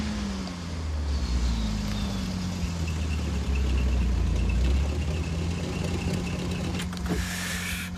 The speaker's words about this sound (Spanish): Detiene el deportivo. Detrás de ellos para el coche de la policía.